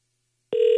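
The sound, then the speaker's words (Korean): Ringback tone of an unanswered telephone call: after silence, a steady electronic tone starts abruptly and holds, loud and unbroken, until the end. “전화를 안 받으시네요.”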